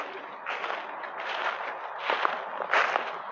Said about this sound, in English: Walking through, not trespassing.